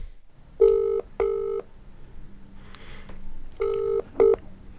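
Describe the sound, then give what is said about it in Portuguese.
A phone is dialed to call someone: four short electronic telephone beeps, two close together, then a gap, then two more, over a faint background. “Deixa eu ligar pro João pra ver se eu descolo aquela carona.”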